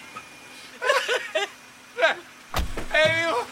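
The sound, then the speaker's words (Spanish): A taxi's car door thuds once as passengers climb out at a resort at night, a single sharp knock set among people talking and chuckling before and after it. “Avista un taxi que se detiene en el resort. Buenas noches, caballero. Que tenga usted buena noche. Víctor y el director salen del vehículo y caminan ebrios.”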